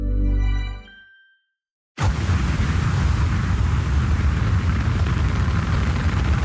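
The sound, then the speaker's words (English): Rocket launch sound effect: after a short fading tone and a moment of silence, a sudden loud, dense roar bursts in and holds steady and unbroken to the end. “That is the sound of the rocket launching.”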